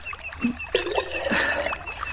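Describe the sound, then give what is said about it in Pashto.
Water fills a jug at a village, a steady splashing trickle with a few brief knocks and a rising hiss of pouring toward the middle. “دا دې منګی ډکوم”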